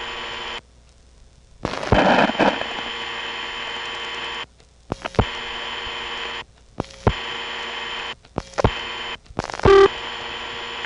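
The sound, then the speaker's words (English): Telephone dialing a vacant number on a phone exchange: several short bursts of tones and clicks separated by quiet gaps, ending with a brief louder burst. “The third digit of the office code 8 will be absorbed, and we're going to dial this time a vacant number.”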